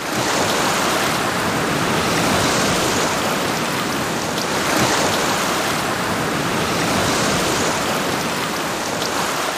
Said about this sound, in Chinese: 潮水开始上涨